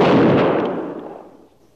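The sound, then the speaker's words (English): A rifle volley from a firing squad, fired as one loud, sharp burst that rings out and then decays steadily over less than two seconds. “Ready. Aim. Fire.”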